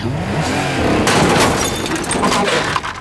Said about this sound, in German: Habe ich rückwärts gesagt oder nicht? Jetzt hast du ihn wieder gerammt. Ich habe ihn höchstens leicht touchiert.